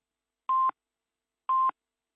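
Radio time signal before the noon news: two short, identical mid-pitched beeps exactly one second apart, clean and alone.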